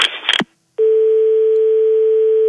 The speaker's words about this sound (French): Je vais l'appeler, il a dû prendre son portable.